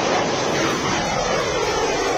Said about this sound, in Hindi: वीर guardian युद्धाभ्यास में ये शौर्य की उड़ान है। जोधपुर एयरबेस इन दिनों हिंदुस्तान और जापान के बीच हवाई ताकत की बेहतरीन साझेदारी का गवाह बन